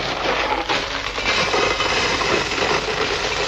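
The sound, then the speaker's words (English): Gravel rattling in a box, a dense, steady, hissing rattle of many small stones shaken together, moderately loud and without pause or voices. “What have we got here? A box of gravel.”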